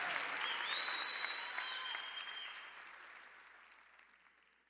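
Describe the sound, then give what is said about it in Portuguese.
Audience applause at a live gospel concert in Belo Horizonte, a dense crowd of clapping with thin whistles on top, gradually fading out. “Uma salva de palmas, gente.”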